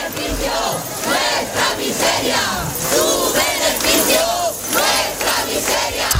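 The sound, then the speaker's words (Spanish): Protesters against evictions chant as they march through the streets of Granada from the government sub-delegation to Plaza del Carmen. The loud, rhythmic chanting repeats in steady waves. “Este era el sonido de la protesta que desde la subdelegación del gobierno se movilizó hasta la Plaza del Carmen.”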